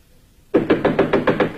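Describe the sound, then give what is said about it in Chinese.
Knocking on a door: a short silence, then a quick, evenly paced series of firm, loud raps. “这时传来敲门声，是雅各的妻子艾米莉亚”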